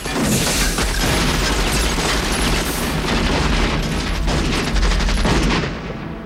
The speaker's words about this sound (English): The officer shouts, kill them, and the soldiers open fire.